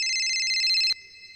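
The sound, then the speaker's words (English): A phone rings with an incoming call at home on a Saturday afternoon, a high, bright electronic ring that cuts off abruptly with a click, leaving a faint steady tone. “It's Saturday afternoon again. I'm actually just at home with my kid. And I get a phone call.”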